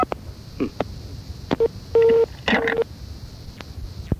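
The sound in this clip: Touch-tone beeps of a telephone number being dialed, a few short electronic tones with one held slightly longer, sounding clearly over a faint background hiss.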